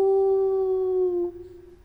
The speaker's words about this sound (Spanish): ¿Qué vemos? Es un lobo.